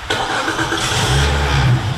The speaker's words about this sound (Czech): Dvoučlenná policejní hlídka nasedá do motorového člunu.